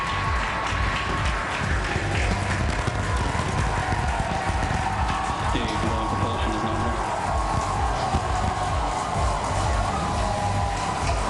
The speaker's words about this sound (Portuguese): Esse foguete ele está decolando de uma plataforma da NASA nos Estados Unidos.